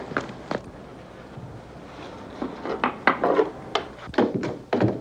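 Hurried footsteps of people rushing up a building's stairs: a loose series of hollow, woody thumps and scuffs, sparse at first, then denser and louder toward the end.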